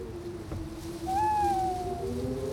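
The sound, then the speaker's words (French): An owl hoots in a Northumberland forest: one long, clear, slightly wavering tonal call that rises out of a steady low drone, then fades. “Tu as reconnu? Oui, c'est exact. C'est une chouette. Pas n'importe laquelle, évidemment.”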